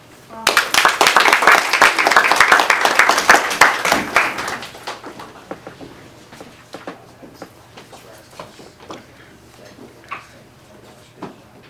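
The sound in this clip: Audience applause for volunteers at Madison Plains Local Schools, a loud burst of clapping that lasts about four seconds and then thins into scattered claps and faint knocks.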